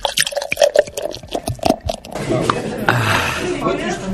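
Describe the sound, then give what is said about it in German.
Beer poured or gulped from a bottle: after voices speak, a steady gushing, sloshing liquid sound fills the second half, with dripping splashes mixed in. “Ich habe gesehen, dass Sie jetzt schon die dritte Flasche Bier heruntergekippt haben.”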